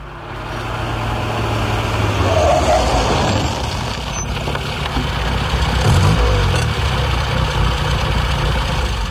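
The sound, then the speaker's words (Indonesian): A brown sedan car arrives and drives into a yard, its low engine rumble building over the first two seconds and then holding steady, with a few faint higher clicks over the drone. “Katon mobil sedan pesut coklat.”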